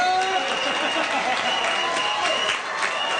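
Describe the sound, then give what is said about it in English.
Portugal football fans cheer and clap during a World Cup comeback, a dense, steady crowd roar with shouting voices over continuous applause. “Portugal fans were celebrating a big comeback yesterday afternoon.”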